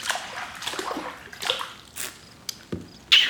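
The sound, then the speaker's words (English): Water sloshes and splashes softly while someone is rinsed during a bath, with a few irregular quiet splashes and trickles and a sharper splash near the end. “Ready to rinse again? Lean back.”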